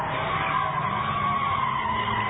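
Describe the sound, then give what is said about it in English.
Car tires screech in a continuous loud skid as a driver spins donuts inches from a crowd and police at a street protest. The squeal holds steady and unbroken throughout. “YouTube shows a driver spinning donuts inches from the crowd and law enforcement”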